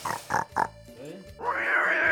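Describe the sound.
A pig sound effect marks the number five called in a Spanish-language bingo game: a few short grunting bursts, then a longer, higher, sustained squeal that holds to the end.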